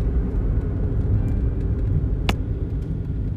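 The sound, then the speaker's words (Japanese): A car drives along a main road in Ōita city at nine in the morning, giving a steady, even low rumble of tyres and engine with no clear changes, with no voices. “今は朝の9時大通りを走行しております”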